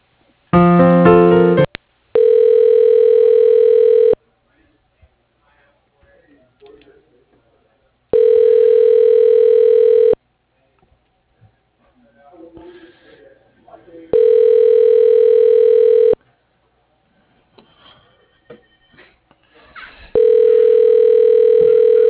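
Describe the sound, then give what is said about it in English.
Telephone tones as a call is transferred to voicemail: a short burst of mixed tones, then four steady, loud pulses of about two seconds each, separated by longer near-silent gaps with faint rustles. “Hang on. I'll transfer you back there to his voicemail, okay?”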